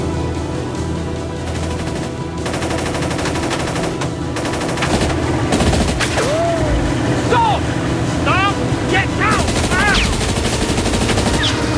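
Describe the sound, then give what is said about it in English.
Gunshots from a silenced pistol crack out during a motorboat chase beneath a bridge. The sharp reports cut through the steady roar of boat engines. “And Nikolai squeezes off a shot from his silenced pistol.”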